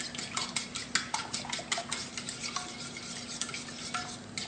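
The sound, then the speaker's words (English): A spoon stirs a maple syrup and brown sugar mixture in a pot on the stove, making many quick, rhythmic scraping strokes with light clinks against the pot, fairly soft and with no voices. “maple syrup. And we're gonna give this all a good mix. Okay, I've turned my stove on.”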